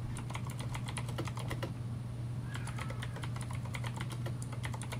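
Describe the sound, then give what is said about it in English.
Fingers type on a computer keyboard in a faint, rapid patter of clicking keystrokes over a low steady hum, with a short pause partway through. “And that goes to, for example, let's just type this in.”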